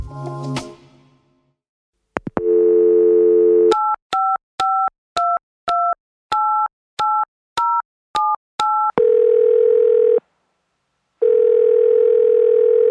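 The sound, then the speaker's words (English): A telephone number dialed on a phone: a short handset clatter and clicks, a steady dial tone, then eleven quick keypad tones of varying pitch, followed by two long ringing tones separated by a pause. “The sound of a number being dialed on a telephone is instantly recognizable.”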